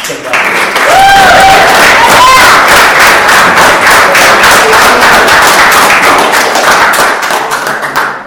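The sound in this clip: Loud, dense applause from a conference audience welcoming a speaker. Sustained clapping runs almost the whole clip, with a few vocal whoops near the start, before tapering off at the end.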